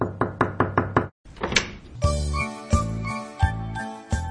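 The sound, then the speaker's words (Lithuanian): Knocking on a door: five quick, evenly spaced raps, then a bright, tinkling musical jingle with sustained tones. “Kas čia beldžiasi į duris? Gal jis mano, kad atidarys?”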